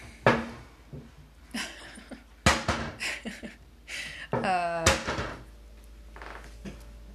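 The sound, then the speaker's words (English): Kitchen cabinet door opened and shut by a child, giving a few sharp wooden bangs and knocks over several seconds, with brief vocal sounds between them. “he's playing with a cabinet in the background. I'm sorry for the banging. He's opening it and closing it.”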